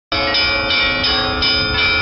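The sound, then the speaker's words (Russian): Cathedral church bells rung by a single bell ringer, the largest bell weighing nearly 1.5 tonnes: loud, dense, continuous ringing of overlapping bell tones with regular pulsing strikes and no voices. “этого собора колоколов, самый большой из которых весит почти 1,5 тонны, расположены так, чтобы управлять ими мог всего один звонарь.”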